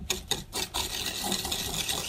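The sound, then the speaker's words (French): Three eggs and 150 g of sugar being mixed quickly by hand in a mixing bowl: a few separate scraping strokes, then a continuous quiet rasping and swishing. “On va mélanger rapidement les œufs et le sucre”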